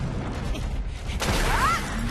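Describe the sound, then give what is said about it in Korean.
A bolt arrow is fired in an animated battle: a sudden whoosh bursts out midway, followed by a short, bright warbling chirp that sweeps upward and then drops away. “랩터 볼트 에로 발사!”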